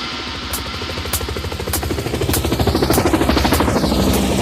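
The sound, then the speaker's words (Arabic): An aircraft flies overhead with a low, throbbing engine drone that pulses steadily and grows louder as it passes. “اسمعي اسمعي يلا طير طير طير طير اسمع الطيارة”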